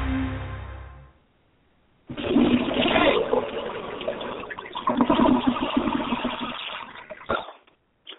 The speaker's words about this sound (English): that was the sound of the United States being flushed down the toilet morally